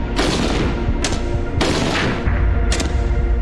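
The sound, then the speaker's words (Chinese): A Type 56 submachine gun fires single shots at beer bottles 100 metres away, a few loud, sharp cracks at uneven intervals, each trailing into a rumbling decay, with no voices. “100米的距离射击啤酒瓶，五六式冲锋枪交出了5发4中的不俗成绩。”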